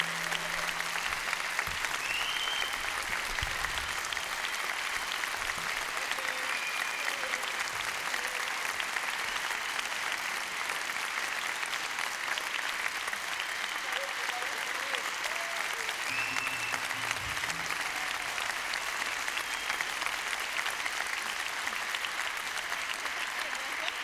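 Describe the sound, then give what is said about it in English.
An audience applauds a musician with a dense, steady clapping that holds at an even level for the whole stretch. A voice briefly talks over it. “How about a hand for Mr. Boisek Ardoin?”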